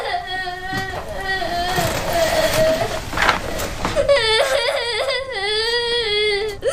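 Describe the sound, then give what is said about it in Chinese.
A child cries in wavering, high-pitched wails and sobs that rise and fall in pitch and continue loudly across the whole stretch with only brief breaks. “你别哭了，我想办法。”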